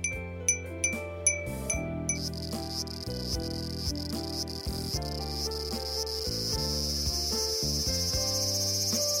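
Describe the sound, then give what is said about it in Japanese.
Cicadas sing in summer: a shrill, steady high-pitched buzz sets in after a couple of seconds and continues unbroken. A few bright tinkling chime strikes sound at the start. “セミの鳴き声です。 やっぱセミの声を聞いたら夏を思い出す。”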